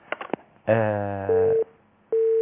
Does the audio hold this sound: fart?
no